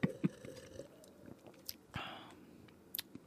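Crunching bites and chewing of raw pumpkin rind, with a few crisp crunches at the start and then softer, wet chewing. The sounds are faint throughout.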